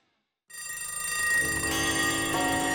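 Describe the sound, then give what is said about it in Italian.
An alarm clock rings, starting abruptly after a moment of silence and then holding as a continuous metallic bell ringing at an even, fairly soft level for about two seconds, with no voices. “che una sveglia suona e che arriva il momento di un tempo.”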